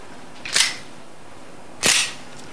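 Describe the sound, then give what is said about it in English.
A handgun is cocked outside a flat door, giving two sharp metallic clicks about a second and a half apart. Each is a brief, bright snap over a quiet background. “stops outside a flat door, and cocks his gun.”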